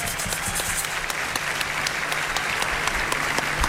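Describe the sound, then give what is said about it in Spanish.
Studio audience applauding during a Chilean television comedy show, a loud, sustained patter of many hands with sharp individual claps standing out, continuous from start to end. “Ante el aplauso del público que celebra nuestra selección chilena de la televisión.”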